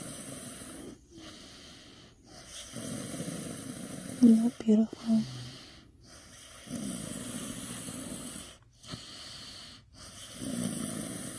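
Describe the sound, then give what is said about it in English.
Soft snoring of a sleeping baby, slow breaths rising and falling in a gentle repeated rhythm with short pauses between them. A voice speaks briefly partway through. “Listen to that baby sleep.”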